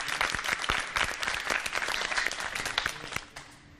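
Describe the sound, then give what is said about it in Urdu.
An audience applauds prize winners at a contest, a lively burst of many individual claps in a quick irregular patter that stays strong, then thins and fades near the end. “تالیاں بجائیے God.”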